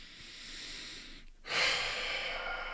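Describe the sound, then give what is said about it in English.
A deep, big breath, heard alone: a long, airy hiss breaks off briefly, then swells into a louder, fuller rush of air that holds to the end. “Yes, that's a deep breath, everybody. It's a big breath.”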